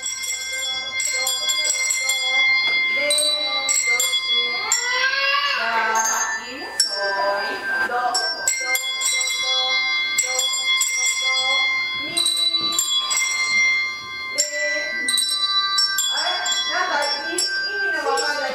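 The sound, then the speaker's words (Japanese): Music bells played by schoolchildren at an exchange event, many bright ringing notes struck in a lively, uneven sequence with sustained overtones, while a voice talks over parts of it. “そしてその後はミュージックベルにチャレンジです。”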